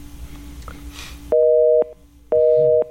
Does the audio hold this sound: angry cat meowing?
no